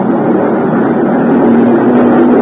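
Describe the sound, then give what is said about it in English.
Outboard motor on a small dinghy coming over from a cruiser anchored in an island cove, giving a loud, steady buzzing drone that swells slightly toward the end, with no voices. “A dinghy with an outboard motor came over from the boat.”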